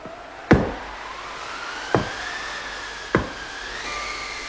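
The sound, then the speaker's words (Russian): Three sharp knocks on a door ring out, spaced over a few seconds, each a crisp single rap above a soft sustained tonal background. “Кто-то стучится к нам.”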